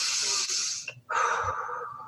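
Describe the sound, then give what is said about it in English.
Slow, calming breathing demonstrated aloud: two long, airy, hissing breaths separated by a brief pause, both steady and fairly loud with no speech. “you just take a breath, just keep breathing, but like this”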